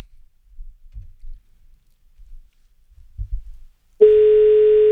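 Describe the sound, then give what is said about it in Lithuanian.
Telephone tone as a number is called: faint, scattered low clicks and thumps for about four seconds, then a loud, steady mid-pitched tone that holds unbroken to the end. “Gerai, pabandykim dabar surinkti numerį.”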